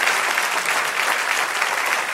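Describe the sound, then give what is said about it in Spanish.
Applause from a church audience during a Spanish-language service: steady, dense clapping of many hands, even in loudness from start to end with no voices standing out. “Denle un aplauso al Señor que se lo merece.”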